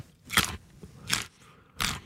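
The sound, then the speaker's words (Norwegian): Three loud, crisp crunches of someone biting into fresh Norwegian carrots in season, evenly spaced, each a short burst of crackly snapping with no talk. “Her er en lydprøve av Norske gulrøtter i sesong, utført av Johannes Høsflot Klæbo.”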